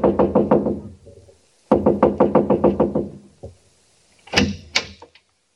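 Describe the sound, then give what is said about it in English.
Knocking on a quiet house door comes in rapid, sharp bursts of several raps each, a longer burst following the first, then a few scattered knocks, with no voices. “So I just kept knocking and knocking.”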